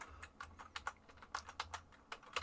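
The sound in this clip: Quick keystrokes on a computer keyboard as a website address is typed. Many light, uneven clicks come in a steady flurry, quiet and alone.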